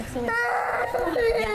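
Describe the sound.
A young child cries in a high, wavering, whimpering voice, loud and continuous through the short moment.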